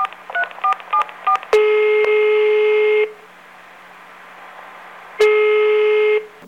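Telephone keypad tones as a number is dialed, five quick beeps of varying pitch, then two long steady ringing tones separated by a pause.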